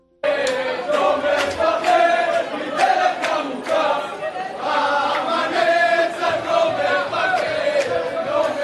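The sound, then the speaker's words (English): A jubilant crowd sings together at Ben Gurion Airport in Tel Aviv as people wave flags to greet arriving passengers. Many voices chant in a steady, rhythmic swell that stays loud from start to finish. “These were some of the jubilant sounds tonight at Ben Gurion Airport in Tel Aviv. People waving flags and singing as passengers emerged safely after a terrifying”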